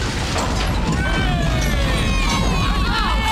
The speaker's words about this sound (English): The wire flies back into the teeth of the shark, throwing up sparks. And the shark machine explodes in a ball of fire.